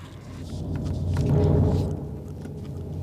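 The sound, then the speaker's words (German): Thunder rumbles low and dull as a storm approaches, swelling to a peak midway and then easing back into a steady murmur. “Das Gewitter kommt näher. Das Haus wird zerfallen unter dem Donner.”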